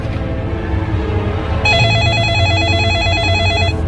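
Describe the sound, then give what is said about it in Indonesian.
A telephone at a guard post at night starts ringing partway in: one long electronic ring with a steady, warbling high tone over a low background hum. “Teleponmu aya di pos ujug-ujug kadenge disada.”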